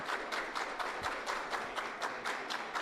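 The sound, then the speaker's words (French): Applause from residents, volunteers and beneficiaries at a social reinsertion project, heard as faint, steady, rhythmic clapping with evenly spaced pulses throughout. “Voilà des applaudissements”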